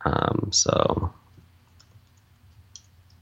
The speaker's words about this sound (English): If we click on the personal backup tab, it's really easy to get started. You just have to click on try it free, provide an email address.